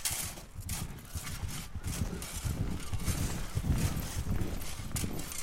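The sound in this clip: Hooves of a white horse clip-clop as it approaches, many low, thudding hoofbeats in a steady run over a rough, noisy background.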